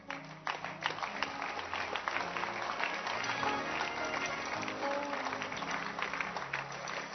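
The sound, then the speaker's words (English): A church audience claps their hands steadily and continuously, a dense even patter that holds at a moderate level throughout. “Oh, keep clapping your hands, encourage them.”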